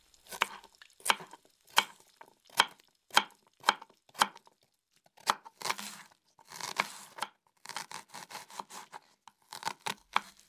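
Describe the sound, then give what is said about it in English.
Knife chopping tomato, lettuce and onion for a hamburger: many crisp, fairly quiet cuts in an uneven rhythm, with a short pause and a burst of rustling midway. “Now, cut the tomato, the lettuce and the onion and put it on the bread.”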